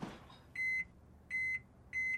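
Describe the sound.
An oven beeps as it is set to preheat: three short, high electronic beeps, evenly spaced and fairly quiet, with near silence between them.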